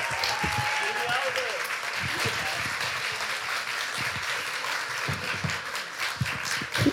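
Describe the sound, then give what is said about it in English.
Audience applause welcoming guests at a live event: sustained, loud, dense clapping that holds steady from start to finish, with talk faintly underneath. “So thank you for the applause”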